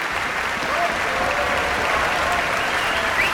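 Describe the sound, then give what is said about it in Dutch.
Concert audience applauding an orchestra after music from the ballet The Firebird: a dense, steady wash of many hands clapping that holds at a fairly even level throughout. “En je hoort dat het applaus nu soms wat aanzwelt.”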